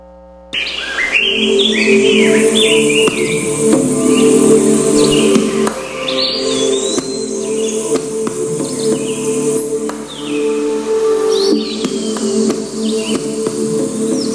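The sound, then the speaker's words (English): Tropical jungle ambience of many birds chirping and trilling over a steady low hum, with bright calls that rise and fall in pitch above a continuous dense background. “There's jungle sounds here.”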